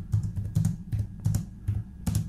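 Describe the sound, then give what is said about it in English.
Typing on a computer keyboard: several quick clusters of clicking keystrokes come in a fairly even rhythm, crisp and moderately loud, with no voices. “that was him typing on the keyboard. He was typing”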